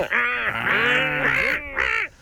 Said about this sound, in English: The seagull. Oh, yeah, that was a bit of a gull, wasn't it?